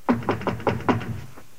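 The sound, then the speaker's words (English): Knocking on a bedroom door in a relative's house: five quick, dull knocks in a steady rhythm, followed by a fainter sixth. “Now, someone knocks on her door at third uncle's house.”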